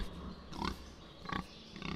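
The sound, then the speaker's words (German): Pigs grunt at a slaughterhouse in the Odenwald where about fifty pigs are to be slaughtered. A few faint, short grunts are spaced out over a low background murmur. “Heute sollen rund 50 Schweine geschlachtet werden.”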